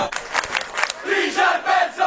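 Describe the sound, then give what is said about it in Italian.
A Rome audience jeers and shouts insults at a guitarist, loud overlapping shouts and cries from a crowd filling the whole moment. “Sono scene che non vorremmo mai vedere. Un grande chitarrista insultato dal pubblico romano, umiliato.”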